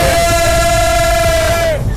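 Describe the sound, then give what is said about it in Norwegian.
A crowd cheers for the Norwegian men's national football team: a loud, steady roar of massed voices that never lets up, with one long sustained high yell held over it until it drops out near the end. “Og fra jubel for det norske herrelandslaget I fotball”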